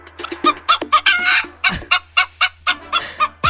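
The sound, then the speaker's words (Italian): Hen clucking after laying an egg: a loud run of squawking cackles, rapid and irregular at first, then settling into an even series of sharp, repeated clucks. “Ah, che la gallina fa così quando fa l'uovo?”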